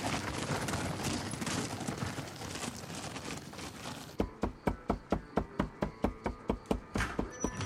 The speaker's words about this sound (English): Inside the restaurant, a cook chops meat with a cleaver.